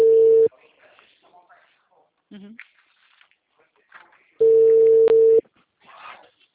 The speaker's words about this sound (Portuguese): Tô ligando.